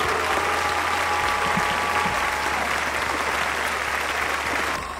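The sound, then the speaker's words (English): Sound effect of a partying crowd cheering and applauding: dense, continuous clapping and cheers hold at a steady loudness, then drop away in the last moments. “Hear that, Code? Do you hear that? That's people partying here at Hutton. Ha! In spite of you. It is. Listen to all those cheers.”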